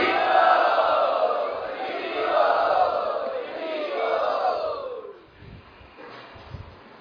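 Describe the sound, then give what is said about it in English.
A crowd loudly chants Hari in unison as a welcome at a Vaishnav gathering. A few long, swelling calls ring out, then die away into quieter murmurs. “Let us welcome them by loudly chanting Hari.”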